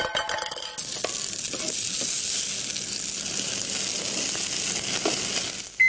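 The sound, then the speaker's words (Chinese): Pork fat frying in a pan gives a steady, fairly faint sizzle and hiss with fine crackling that runs throughout, with no voices. “煎啲肥膏出嚟啊嘛！”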